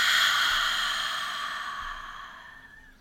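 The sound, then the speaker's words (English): A deep breath released in one long, breathy exhale during a guided meditation, soft and airy and slowly fading away over a few seconds, heard alone without speech. “close your eyes. And let's take a nice deep breath in. And release.”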